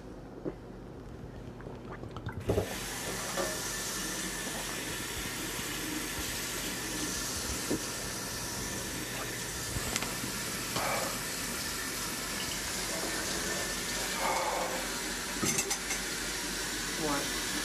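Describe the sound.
Liquid drains off cooked ribs in a steady, rushing hiss that begins abruptly after a couple of seconds and runs on evenly, marked by a few brief knocks.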